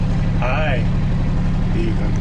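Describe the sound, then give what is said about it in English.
The low, steady engine drone of a two-wheel-drive side-by-side off-road vehicle driving through woods, humming continuously beneath a brief stretch of talk. “quite proud of the capabilities of his side-by-side. Well, it was a two-wheel drive.”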